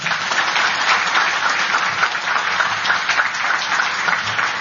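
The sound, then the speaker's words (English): Audience applause at a panel event, dense and steady clapping from a crowd that stays loud and even for the whole few seconds, with no voices over it. “please give them a round of applause”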